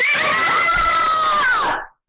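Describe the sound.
An audience screaming at a Pokémon game event: a loud, sustained, high-pitched roar of many voices, loud enough to overdrive the microphone, lasting under two seconds before cutting off abruptly.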